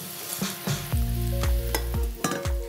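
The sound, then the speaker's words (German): Cream sauce with butter bubbling and sizzling in a pan as it is swirled and brought to the boil, with a steady sizzle broken by repeated soft pops and clatters, and no talking. “Und jetzt schwenken wir das Ganze einfach nur. Lassen das einmal aufkochen. Dann reduziert die Sahne quasi jetzt dann noch so ein bisschen ein.”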